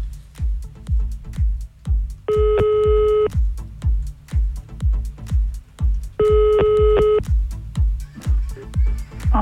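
Two telephone ringback tones sound while a call is placed again during a morning radio prank call. Each tone is a steady electronic burst about one second long, over a thumping rhythmic beat.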